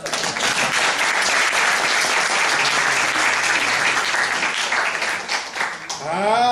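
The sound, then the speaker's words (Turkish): Loud, dense applause from the audience at a Quran commentary lesson, sustained at an even level before thinning briefly near the end, after which a voice comes in. “Hani alkış!”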